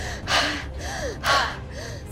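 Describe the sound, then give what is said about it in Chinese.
Fast, heavy breathing that simulates near-extreme exercise during a breathing test. The strong, rasping breaths come in a steady rhythm, alternating louder gasps with softer ones, and no voices are heard. “第三项检测要模拟接近极限运动状态下的呼吸模式，这又是怎样的体验？ 准备好，开始。”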